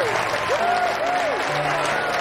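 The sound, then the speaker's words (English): Wedding guests applaud the couple with steady, dense clapping that runs through the whole stretch, and a few voices and whistle-like tones are mixed in. “Congratulations to the happy couple. Come on, everyone give them a hand.”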